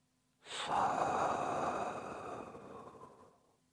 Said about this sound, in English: Listen carefully to your own breath while I demonstrate the subtle sound that exists in the breath. On inhalation,